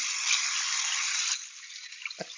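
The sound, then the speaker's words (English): Water runs from a tap while someone shaves: a steady broad hiss for over a second that then stops, followed by a few faint drips and small splashes. “What I'm doing? Yeah, are you washing your hands? No, I'm currently shaving because I decided to get in the mood.”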